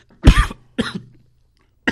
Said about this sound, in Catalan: al parlar del president Pujol, t'has ficat, t'has atragantat l'aigua